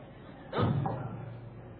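A microphone being put down during a lecture gives one dull, fairly loud thump, followed by a faint low rumble that fades out.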